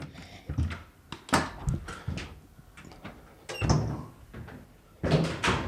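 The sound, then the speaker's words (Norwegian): A restroom door is shut and locked, giving a quick run of knocks, clicks and rattles of the latch and handle, with a few louder thumps near the end. “så låser jeg etter meg”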